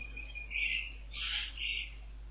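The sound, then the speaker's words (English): Tropical birds calling faintly in the background of a call: a few bright, warbling chirps in short bursts over a steady low hum, with no talk. “I can hear the tropical birds in the background.”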